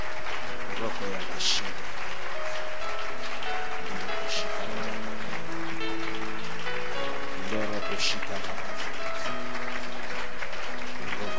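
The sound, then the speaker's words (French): A church audience acclaims the presence of the Holy Spirit with steady clapping over sustained music and voices, the sound staying loud and even throughout. “Quelqu'un est en train d'acclamer la présence du Saint-Esprit.”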